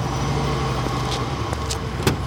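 A taxi car pulling up in a drama sound effect, its engine running as a steady, loud hum, with a few faint clicks on top.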